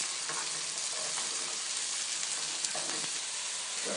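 Mirepoix sweating in a hot pan gives a soft, continuous frying sizzle, a steady fine hiss that stays faint and even, with no voices over it.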